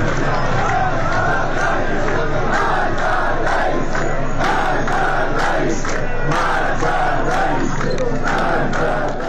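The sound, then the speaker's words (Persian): Protesters in Tabriz chanting slogans against the president and government, a massed crowd roaring steadily with rhythmic, pulsing surges of voices throughout. “بر اساس گزارش رادیو فردا، معترضان در تبریز علیه رئیس جمهور و دولت شعار دادند.”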